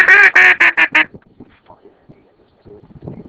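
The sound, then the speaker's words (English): Large ducks quacking: five loud, nasal, harmonic quacks in quick succession, then fainter scattered calls and rustling. “Oh, it's big birds, bro. It's big ducks.”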